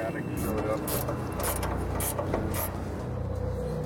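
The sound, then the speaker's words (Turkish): Clicking from the mechanism of a stalled, powerless train standing on the rails, a steady series of evenly spaced light ticks about half a second apart over a continuous low rumble. “Hiçbir şey çalışmıyor. Ne öne ne geriye gidiyor. İnlemesini duyabilirsin. Klik klik klik klik. Lanet olsun. Rayların üzerinde bekliyoruz.”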